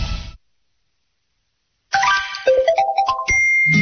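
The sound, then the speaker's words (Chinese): A phone chime for a new text message, heard after a stretch of silence as a quick run of bright, tinkling notes stepping up and down, ending on a held tone. “您有一条新的短消息”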